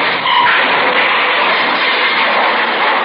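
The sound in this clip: A blue sedan drives straight at them with its engine roaring in a dense, unbroken rush of motor and tire noise that holds steady and loud throughout.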